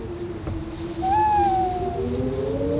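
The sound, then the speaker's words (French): An owl from a Northumberland forest gives a single drawn-out, clear hoot that sags slightly in pitch as it fades, set over a low, steady tonal background. “Oui, c'est exact. C'est une chouette. Pas n'importe laquelle, évidemment. Une chouette de la forêt de Northumberland.”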